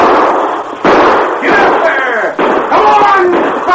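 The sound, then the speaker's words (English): Gunshots from revolvers and a rifle at a rocky fortress, a few sharp, loud cracks at uneven intervals, each trailing off into a rough, noisy decay. “A rifle cracked from the rocky fortress above. Then the Lone Ranger's gun spoke...”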